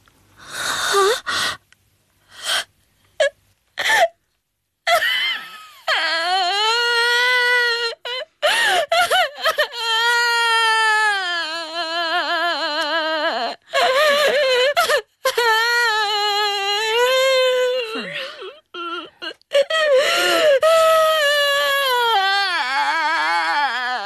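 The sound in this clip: A girl cries hard, starting with choppy sobs and sharp gasps, then breaking into long, wavering, high-pitched wails. Short catches of breath interrupt the wails throughout.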